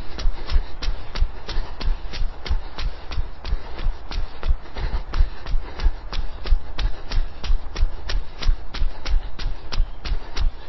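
Running footsteps strike in a fast, steady rhythm, many sharp, even footfalls repeating without pause over a constant background noise, with no voices.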